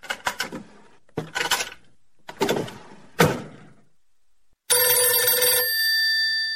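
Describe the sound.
Several sharp clattering, door-like bursts are followed by a telephone bell that starts abruptly and rings steadily, bright and loud, to the end.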